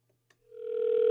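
A telephone ringback tone sounds while a landline is being called. After a brief near-silence, a single steady tone swells in and holds at a constant pitch, growing louder to the end.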